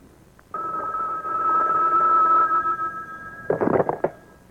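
A telephone rings with an electronic tone, holding one steady pitch for about three seconds before breaking into a few short, choppy bursts.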